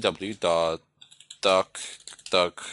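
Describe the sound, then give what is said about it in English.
Typing on a computer keyboard on a machine running Kali Linux: soft keystroke clicks in the pauses between spoken phrases, mostly faint and partly under a person's talking. “So type in proxy chains, Firefox, and we can type in the website that we wish to visit. So let's just type in”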